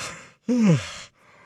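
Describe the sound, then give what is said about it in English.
A person yawns: a single half-second voiced breath whose pitch slides downward, set between stretches of quiet background hiss. “Sorry. Didn't mean to yawn on you there.”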